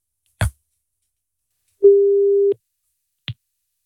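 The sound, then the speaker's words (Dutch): Ringback tone of an outgoing phone call: one steady, mid-pitched tone lasting under a second, with a click before it and short clicks around it, otherwise silence. “Even testen of hij snel opneemt of überhaupt opneemt als ik nu bel.”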